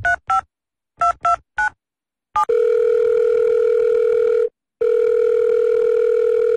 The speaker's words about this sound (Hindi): तंग आकर मैंने खुद ही कॉल लगाया।